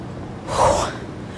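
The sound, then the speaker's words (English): One heavy, breathy gasp from a person who has just walked up a steep street hill in Washington, D.C. It is a single audible breath that swells and fades within about half a second, with nothing spoken. “18th Street is a big hill. Child, just breathing hard, breathing hard. Breathing hard.”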